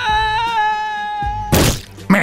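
Comic sound effect of someone jumping from a building's second floor: a sustained wailing tone sinking slightly in pitch, then two loud, crashing impacts in quick succession.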